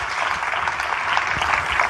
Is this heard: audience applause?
yes